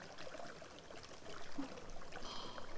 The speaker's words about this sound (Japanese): 風呂場でしたのもあって、少々汗をかいてしまうとな。さっさと体を洗ってしまうとするか。